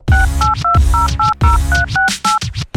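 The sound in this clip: Telephone dialing tones placing a call: a quick series of many short, loud touch-tone beeps in two bursts, each tone a clean two-pitch chime separated by brief gaps.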